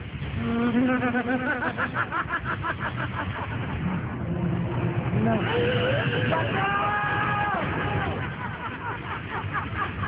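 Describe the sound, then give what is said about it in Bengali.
A car losing control and skidding toward an oncoming truck: a continuous loud engine roar with wavering, squealing tire-screech tones rising over it partway through. “আবির গাড়ির control রাখতে পারছে না, উল্টো দিক থেকে আসছে একটা ট্রাক”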